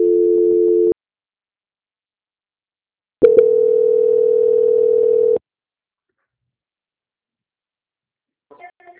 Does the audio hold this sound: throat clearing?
no

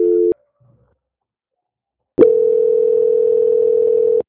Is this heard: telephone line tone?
yes

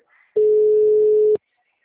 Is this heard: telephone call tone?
yes

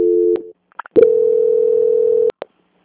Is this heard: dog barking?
no

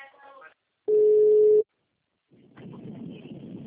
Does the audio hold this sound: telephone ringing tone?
yes

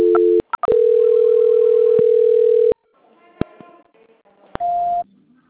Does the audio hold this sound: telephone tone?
yes

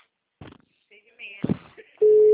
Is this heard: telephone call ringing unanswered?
yes

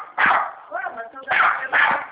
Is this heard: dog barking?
yes

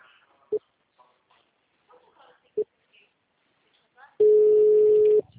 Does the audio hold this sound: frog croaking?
no

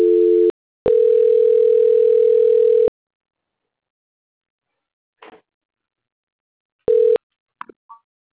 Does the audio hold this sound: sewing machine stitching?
no

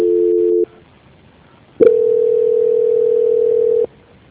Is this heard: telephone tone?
yes

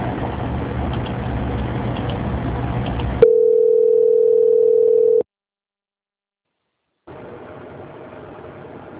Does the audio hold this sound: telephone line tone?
yes

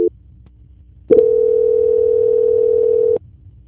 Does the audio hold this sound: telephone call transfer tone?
yes

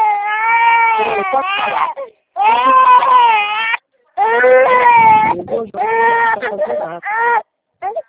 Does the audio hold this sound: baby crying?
yes

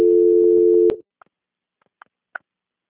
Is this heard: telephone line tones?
yes

